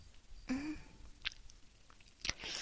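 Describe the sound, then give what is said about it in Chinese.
Someone eats an extra-large jelly with pieces of fruit inside, making faint, soft wet chewing and slurping sounds in a few short bursts. “我在吃果冻。”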